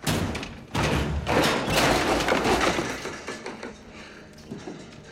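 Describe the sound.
A door is forced open with a metal bar: a loud, grinding burst of scraping and thudding that eases into fainter knocks and rattles.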